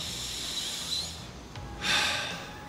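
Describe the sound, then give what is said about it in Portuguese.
A deep breath during a guided breathing exercise: a faint, airy breath swells softly in the latter half over a quiet hiss, with no talking. “E respira de novo.”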